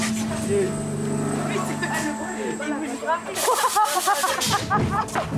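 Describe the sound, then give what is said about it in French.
A block-making press hisses and whirs as it starts up and calibrates after going into fault. Continuous mechanical noise carries a few sharper bursts, and voices talk over it. “Elle s'est mise en défaut parce qu'elle est en démarrage. Quand elle est en démarrage, elle pose des blocs de l'autre côté. Et c'est normal, c'est le calibre, ce qu'on appelle le calibrage de la presse.”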